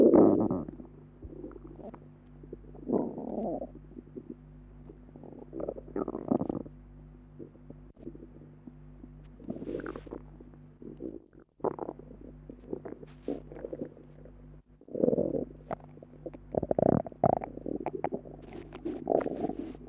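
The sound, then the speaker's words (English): Gurgling bowel sounds recorded from a patient's abdomen after a total colectomy for ulcerative colitis, with many soft rumbling bursts over a low steady hum. “The intestinal noises which have been recorded are almost continuous and are quite normal in character.”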